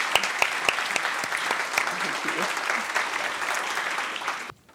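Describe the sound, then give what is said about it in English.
An audience claps after a talk about a book, giving loud, dense and sustained applause with sharp individual claps standing out. The applause holds steady, then cuts off abruptly at the end. “So we're going to have, yeah, give it up.”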